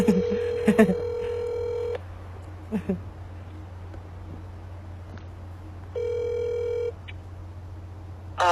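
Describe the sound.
Telephone tones as an incoming call is dialed and connects: a long steady tone with a few short beeps at the start, a brief burble, then a second ring-like tone after a pause, all over a low steady hum, with no talking.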